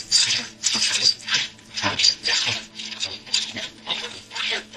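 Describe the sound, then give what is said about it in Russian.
Gritty rasping strokes of a hand saw cutting wood, repeating in a steady back-and-forth rhythm. Many bright, scratchy pushes and pulls come through at moderate loudness. “Ручная пила продолжала звучать.”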